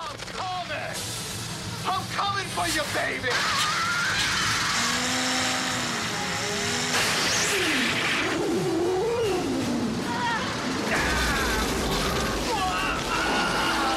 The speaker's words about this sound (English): Now his machine is wiping out, of course, which was a great surprise to him that this huge machine can even break.